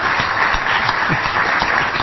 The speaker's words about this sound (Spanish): les propongo entonces que vayan recibiendo con un aplauso a cada uno de los integrantes de la mesa